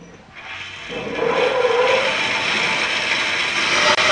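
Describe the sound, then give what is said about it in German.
A woodworking saw machine in a workshop, used to cut boards, switches on: a loud mechanical whir builds within the first second, then holds as a steady, rough drone with no voices. “Ich habe die Maschine eingeschaltet und da ist der Hebel sofort zurücksprungen.”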